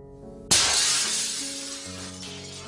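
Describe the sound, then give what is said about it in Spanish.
Glass windows and shop windows shatter in one sudden, loud crash, followed by a long, bright spray of falling shards that slowly fades away. “Por todo el país se rompen ventanas y escaparates, se incendian sinagogas y comercios, se saquean domicilios particulares.”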